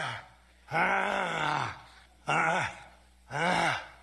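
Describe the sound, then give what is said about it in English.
Grunting attributed to Donald Trump: three separate low, throaty groaning grunts, each about half a second to a second long, with short pauses between them and no talk. “Insert Trump grunting.”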